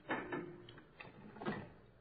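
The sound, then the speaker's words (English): A door is locked again, a few faint clicks and rattles of the lock and handle, quiet and spaced apart with little else around them. “I guess it'd be a good idea if I locked the door again, huh?”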